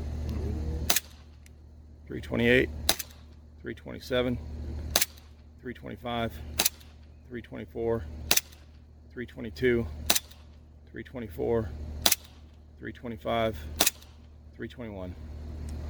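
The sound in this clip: An airsoft pistol fires about eight sharp, cracking shots over a chronograph at an even pace of roughly two seconds. A man's voice talks between the shots.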